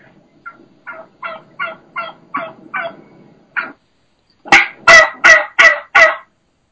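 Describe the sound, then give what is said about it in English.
Wild turkey hen yelping near a gobbler in a small group of hens: a softer run of short, evenly paced yelps, then five louder, harsher yelps in quick succession. “there's one hen that's doing the high pitch, fast pace, that higher, that just regular, normal, plain yelp.”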